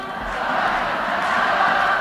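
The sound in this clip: Stadium crowd ambience at the Johan Cruyff stadium as a Barça legend urges fans to sing, a dense, steady roar of many voices, loud and continuous throughout.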